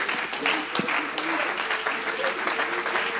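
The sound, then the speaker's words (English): A church audience clapping their hands during a worship service: dense, steady applause that carries on evenly from start to finish. “As we begin to clap our hands,”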